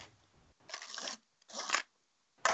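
Adjusting the shutter speed on a Hasselblad 1000F camera produces a few faint, short bursts of dry mechanical clicking and ratcheting, separated by brief silences.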